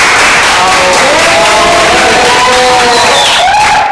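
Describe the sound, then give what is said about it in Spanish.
Audience applause for a guest invited on stage, loud and continuous from start to end. Cheering voices with wavering, drawn-out tones rise above the steady clatter of clapping. “Un aplauso a Néstor Zapata. Se escucha.”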